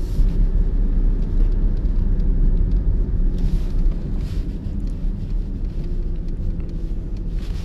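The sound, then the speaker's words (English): A car driving on the way to work gives a steady, loud low-pitched rumble of engine and road noise that holds evenly throughout, with no talking. “I'm driving to work right now”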